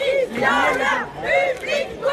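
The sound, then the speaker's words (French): A few dozen feminist protesters chant slogans outside a Paris cinema in the Latin Quarter before a film premiere. Loud voices in unison rise and fall in rhythmic chanted phrases. “Polanski, violeur, public, complice, ce que scandent ces quelques dizaines de féministes devant le cinéma Le Champeau dans le quartier latin à Paris.”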